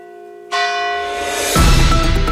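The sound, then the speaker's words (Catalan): Church bells toll from an old bell tower, marking eight in the evening: two loud strikes about a second apart, each ringing with a sustained cluster of metallic tones that overlap and linger. “Serà, com sempre, quan des del vell campanar s'anuncie amb estos tocs, que són les 8 de la vesprada.”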